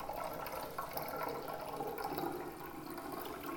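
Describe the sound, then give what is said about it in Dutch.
Home-brewed spring drink pours into bottles as a steady, continuous rush of liquid that holds at an even level for the whole stretch, with no voices. “De laatste stap is simpelweg giet de drank in de flessen.”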